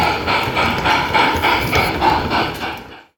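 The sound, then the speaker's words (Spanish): Model train running on a railway layout that recreates the line through Baza, giving a quick, regular clacking rattle of wheels and mechanism that pulses steadily, then cuts off abruptly near the end. “Bueno, pues ya está aquí pasando por Baza el tren. Mira, mira cómo suena.”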